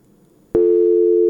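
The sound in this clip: Steady telephone line tone after a listener's call to a radio phone-in dropped. It cuts in abruptly after a faint low hum and holds one constant, fairly loud pitch to the end.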